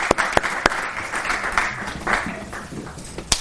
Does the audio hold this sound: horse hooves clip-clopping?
no